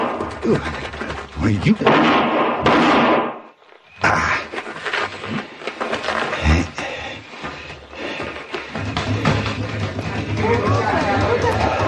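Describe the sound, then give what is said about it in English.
A gunshot fired at someone in a Western drama scene, a sharp report bursting amid talking voices and scuffling commotion. “What happened? Somebody took a shot at me. They ran down that alleyway.”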